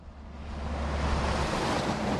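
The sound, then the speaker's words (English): Steady wind and surf-like roar along a coastal marshland highway in southwest Louisiana, hurricane-damaged country; a broad, continuous rushing noise with a low rumble underneath at first, holding loud and even throughout. “That's the sound of the Creole Nature Trail in southwest Louisiana.”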